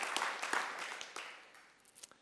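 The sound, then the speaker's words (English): A church audience claps, a quiet burst of applause with distinct individual hand claps that thins out and fades toward the end. “If we're going to clap him, I think we should really clap him because he deserves it.”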